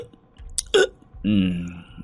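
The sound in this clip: A voice imitates a drunk man hiccupping as he slumps down at the foot of a banyan tree at night: one short, sharp catch followed by a longer, drawn-out voiced sound.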